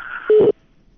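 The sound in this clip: A telephone line tone after a caller's line is cut off: a single short, steady low beep, following a fainter higher hum and then silence.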